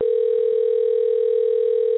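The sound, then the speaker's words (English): A telephone line tone sounds while a guest is being called: a single steady, unbroken mid-pitched hum that holds at an even level for the whole clip, with no voices. “you may hear the phone ringing right now.”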